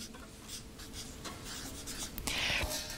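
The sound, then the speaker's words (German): Handwriting on paper: quiet, continuous scratchy strokes of a pen for about three seconds, forming a soft rustling texture that grows slightly louder and sharper toward the end, with no talk over it. “Ich schreibe hier mal noch die Tradition dazu.”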